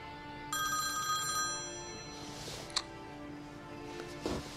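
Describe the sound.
Mobile phone ringing with an electronic ringtone. A bright, layered tone bursts in after a short silence and sounds for about a second, then continues more faintly. A few small clicks follow.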